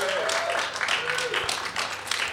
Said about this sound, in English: Can we give them a round of applause, please?